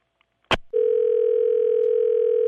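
A telephone tone for an incoming collect call begins with a short click on the line, then a steady mid-pitched tone that holds unbroken and evenly loud to the end.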